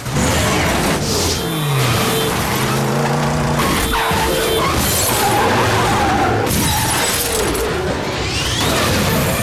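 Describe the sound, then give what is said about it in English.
Vehicles collide and missiles slam into a concrete bridge as a convoy comes under rocket attack: a loud, continuous jumble of crashing, shattering debris, screeching tires and engine noise, with no pause. “The convoy is under rocket attack. Vehicles collide. Missiles slam into the concrete structure of the bridge.”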